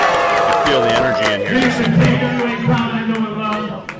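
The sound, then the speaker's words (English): A crowd at a wrestling event cheers and shouts loudly and continuously, with many excited voices rising over a steady roar. “Oh, this crowd is fired up.”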